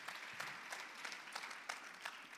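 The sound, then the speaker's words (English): An audience gives a round of applause for a group stepping down after their turn, many hands clapping in a thick, continuous wash with a few sharper claps standing out now and then. “Can you give these guys a huge round of applause?”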